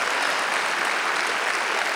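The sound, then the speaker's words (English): Sustained applause from an audience at a worship service: dense, steady clapping that holds at an even loudness for the whole stretch, with no talk over it. “Come on, if you're gonna clap, give a decent clap.”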